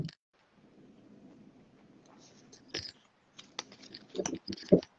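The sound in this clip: Paper name slips rustle and crinkle as they are shaken in a hat for a drawing: a faint, low shuffling texture, then a few sharper crackles and clicks near the end.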